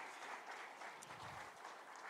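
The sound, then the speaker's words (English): Applause from a church audience during a morning service, a faint, steady wash of many hands clapping without clear pauses. “Give Pam another round of applause for”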